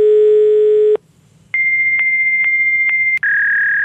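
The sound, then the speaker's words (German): A fax machine sounds a low steady tone for about a second, then after a short silence a long high-pitched tone with soft regular pulses. Near the end it shifts to a slightly lower pitch. “Ein Faxgerät. Das haben immer weniger Leute bei sich daheim.”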